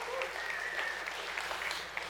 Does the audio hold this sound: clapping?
yes